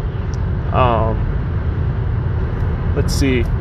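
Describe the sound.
Steady, loud low rumble of road noise inside a moving car, continuous throughout, with a person talking over it.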